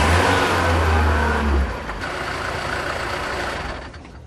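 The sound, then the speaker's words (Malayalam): A bus engine rumbles with a deep, loud drone that cuts off abruptly partway through as the bus stops suddenly, leaving a quieter, even noise that fades at the end. “അയ്യോ, വണ്ടി പെട്ടെന്ന് നിന്നല്ലോ, എന്ത് പറ്റിയോ ആവോ. Conductor, എന്താ വണ്ടി നിന്നത്?”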